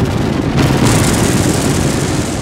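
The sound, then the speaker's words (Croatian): A small private plane crashes in a sound effect, a loud, dense roaring rumble that grows brighter and harsher after the first half second and then holds steady. “Izgleda da je pao neki avion.”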